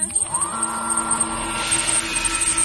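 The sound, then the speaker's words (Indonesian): A time machine powering up as a sci-fi sound effect: a tone sweeps upward at the start, then settles into a steady mechanical hum with a thin high whine that holds to the end. “mesin waktu sudah dinyalakan, kamu siap bernostalgia.”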